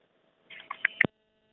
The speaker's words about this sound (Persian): بله، تماس این شنونده ما متاسفانه قطع شد.